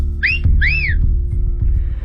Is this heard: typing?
no

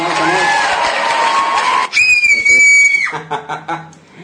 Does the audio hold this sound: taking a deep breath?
no

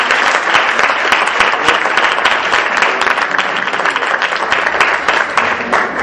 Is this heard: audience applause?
yes

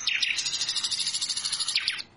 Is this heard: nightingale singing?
yes

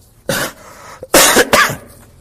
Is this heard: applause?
no

